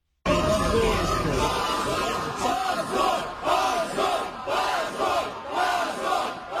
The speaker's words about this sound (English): That was the sound of the party's supporters chanting shame outside the court after that verdict was announced.